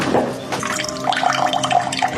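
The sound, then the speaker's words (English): Water runs from a kitchen cold-water tap in a steady, full hissing rush. A faint whistling tone rides on top, and the flow stays even throughout. “This is my cold water pressure in the kitchen.”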